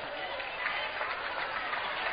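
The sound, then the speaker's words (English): Basketball crowd applauding a player as he checks out of the game and walks to the bench, a steady, dense patter of clapping mixed with crowd murmur at an even level. “Crowd giving Moore a nice applause as he comes to the bench.”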